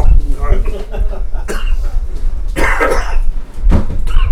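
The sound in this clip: Coughing after hot pepper jack cheese went down the wrong way: a few harsh, noisy bursts come in rough succession, mixed in with people talking.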